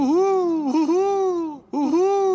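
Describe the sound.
A person in a vampire costume howling theatrically: long, loud wavering wails with arching pitch, broken by one short dip and then a brief gap before another sustained howl.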